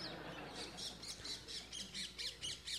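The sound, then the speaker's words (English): People imitating bird calls with a rapid string of many faint, squawking, crow-like cries at a fairly even pace over a low background murmur. “Then some are imitating different birds.”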